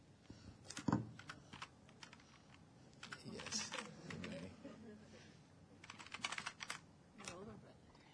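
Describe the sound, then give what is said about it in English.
Keys clatter on a computer keyboard in scattered bursts of typing, with an Enter key pressed along the way and a harder strike standing out early on, while voices talk softly alongside. “Yeah, just type roller, but there you go. Just hit enter.”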